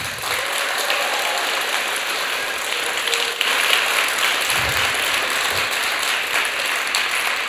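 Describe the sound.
A poetry slam audience applauds to show an eight-point rating for a text, producing dense, steady clapping that swells a little louder midway and stays even to the end.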